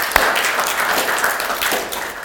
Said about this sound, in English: So, round of applause.